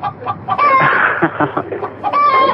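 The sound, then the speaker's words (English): A chicken clucking and squawking in a restroom stall, with a run of loud, nasal clucks and drawn-out squawks separated by short pauses. “So you saying there's a chicken on our restroom? Yeah, and it won't let me out. Blocking the door of the stall, it keeps pecking at me.”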